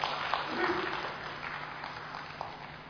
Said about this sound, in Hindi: सबसे पहले तो सर के लिए जोरदार तालियां हो जाए।